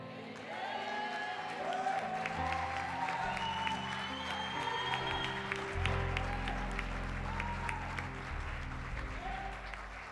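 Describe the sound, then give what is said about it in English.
A church audience claps its hands in sustained applause, a dense and steady patter of many palms that carries on for about ten seconds. “Clap your hands one more time for the one who died for you.”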